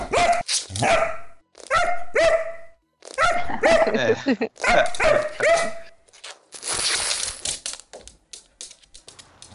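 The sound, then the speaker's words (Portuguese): A dog barks loudly and repeatedly in short, clipped bursts, several barks grouped together with brief pauses between runs, followed by a rougher, noisier stretch toward the end. “Não, a gente tem cachorro no nosso podcast”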